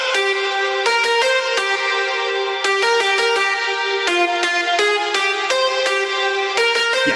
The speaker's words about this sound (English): And the lead, which is like 1, 2, 3, 4, 5, 6, 7, 8, 9 sounds stacked on top of each other. Sounds like this. And it's just following the vocal chop melody.